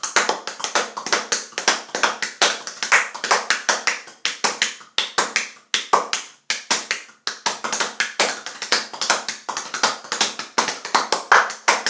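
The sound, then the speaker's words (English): Percussion played by tapping and slapping hands on a bare stomach: many quick, sharp taps in rhythmic bursts separated by brief pauses, loud and unaccompanied. “Welcome to another version, another episode of Stomach Percussion.”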